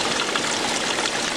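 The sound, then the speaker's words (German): Water from a fountain in Bremerhaven splashes and rushes in a continuous, steady, dense wash of noise, with no pauses or breaks. “Bei uns löst das aber nur Freude aus, denn das ist der Sound eines Springbrunnens.”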